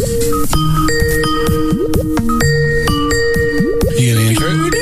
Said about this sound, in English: I was going to let it ring.